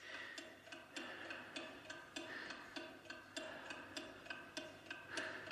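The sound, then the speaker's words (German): A clock ticks in a steady, even rhythm, each tick soft and sharp, continuing quietly on its own throughout. “Das Ticken der Uhr wird unerträglich.”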